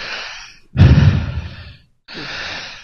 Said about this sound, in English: I'm wheezing, by the way. Hold on, let me see if I can catch it on the mic.